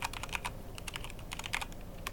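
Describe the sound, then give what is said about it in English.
Typing on a computer keyboard: quiet, rapid key clicks in an uneven but steady patter, with no talk over them. “Oh, so I just typed in... Jurger into Google.”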